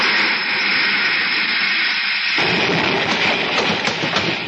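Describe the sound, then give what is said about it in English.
Enemy gunfire hits a spaceship in a radio drama effect. A steady high hiss runs first, then a deep rumbling roar bursts in abruptly partway through and carries on loud with a crackling texture. “Rings of Saturn, they got us. Lancing shot, but our power's gone.”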